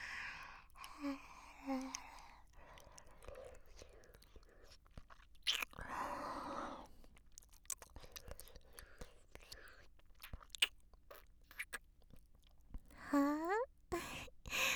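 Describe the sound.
Wet licking and smacking mouth sounds, many soft irregular clicks, slurps and chewing-like squelches, mixed with whispery breaths and a few short sighs, all quiet and close.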